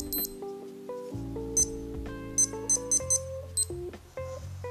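Electronic alarm clock ringing at twelve o'clock, playing a steady melody of sustained tones stepping between pitches, punctuated by several short, sharp high beeps, clear and alone without talk.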